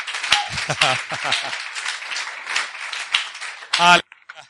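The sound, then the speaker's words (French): A church audience applauding, with voices calling out over the clapping. The sound stays busy throughout and ends in a final loud burst that cuts off abruptly. “Est-ce qu'on peut acclamer pour cette femme-là?”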